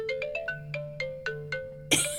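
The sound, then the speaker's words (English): A cheerful phone ringtone plays: bright electronic melody notes, a quick run at first, then evenly spaced ringing tones, repeating in a bouncy rhythm over a low steady hum, with no voices over it. “Is that your ringtone? Yes. Is my ringtone.”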